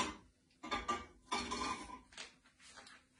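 Metal spatula scraping a pan while potato cooks in butter: a few rough, clattering scrapes in uneven bursts, with short pauses between them and no talking.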